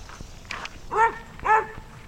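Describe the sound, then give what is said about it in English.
Two loud, sharp alert barks from a white German Shepherd mix in a shelter pen, spaced about half a second apart, with fainter rustling and footstep-like taps before and between them. “That's an alert bark. Okay, she's saying, hey, somebody's new.”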